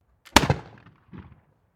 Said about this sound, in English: a .44 caliber ball explodes from a Union pistol